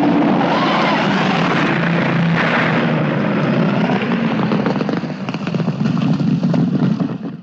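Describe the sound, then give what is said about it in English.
Planes coming in to land at an RAF airfield, a loud, continuous droning roar of aircraft engines that holds steady for several seconds and eases slightly near the end. “As the planes come in to land, he goes back inside.”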